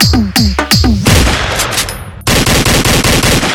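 Gunfire in the mobile battle-royale video game Free Fire: a few sharp blasts with falling tones, then a dense wash of noise, then a loud burst of rapid, evenly spaced automatic fire.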